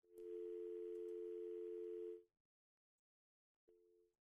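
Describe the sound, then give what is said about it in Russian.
A telephone line tone sounds while a dropped call is redialed: a loud, steady single-pitch tone holds for about two seconds, cuts to silence, and then briefly returns at the end. “К сожалению, сорвался звонок. Попробуем еще раз. 7373948.”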